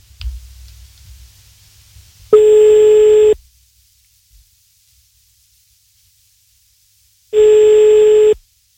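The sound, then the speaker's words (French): Telephone tones as a number is redialed for a prank call: two steady, mid-pitched electronic tones, each lasting about a second, separated by several seconds of silence, with a faint low rumble before the first. “on recompose le numéro de téléphone”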